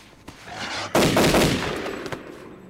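A rifle fires: one loud, sharp blast with a long rolling decay, and a few fainter clicks before and after it.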